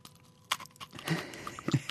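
Crisp bite into a passion fruit and chocolate macaron: one sharp crunch, then a few soft, quiet chewing crunches.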